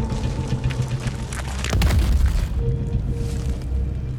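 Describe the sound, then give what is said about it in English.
A heavy Russian artillery barrage firing from all barrels almost without pause, a dense, continuous low booming rumble that swells loudest in the middle and stays heavy throughout. “Suddenly, the Russian artillery opened up. They fired from all barrels and almost without pause.”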